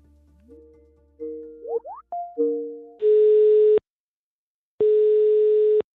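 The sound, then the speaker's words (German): Telephone tones from a call to a telecom company: a quick run of short gliding and stepped electronic tones, then two long steady beeps separated by a pause, with no voices. “Anruf bei der Telekom.”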